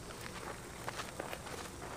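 Footsteps of people walking in the desert: soft, irregular steps over a steady background hiss.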